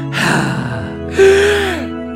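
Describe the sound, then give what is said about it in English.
A person breathes out audibly, loud and close, in two breathy rushes of air, the second carrying a faint voiced tone like a sigh. “So now I have to breathe out.”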